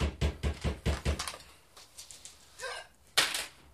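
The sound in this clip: A ten-sided die rolled during a tabletop role-playing game: a quick run of light rattling clicks, then a few soft knocks and taps as it lands, faint and without speech.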